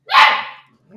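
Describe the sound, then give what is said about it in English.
A blue merle Australian Shepherd puppy gives one loud, sharp bark, followed by a faint, brief sound. “The puppy's okay. Up here with me. That is a cute puppy. Isn't it a cute puppy? Yeah, he's a blue Merle Australian Shepherd.”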